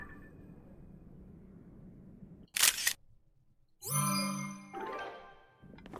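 Camera shutter snapping a photo in the video game Zelda: Tears of the Kingdom: one short, sharp click burst, then a bright chiming ding and a fainter shimmering second tone over a quiet low hum.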